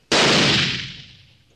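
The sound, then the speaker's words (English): An old powder-charged blunderbuss, tamped with wadding and loaded with a gold nugget, fires once into sandstone rock by a mine shaft opening: a single loud, sharp blast with a long, rough decay. “I'm going to put a charge of powder in this old blunderbuss, tamp the wadding, use a nugget for a bullet, and fire into the rock near the shaft opening.”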